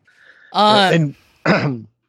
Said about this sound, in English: I was just clearing my throat.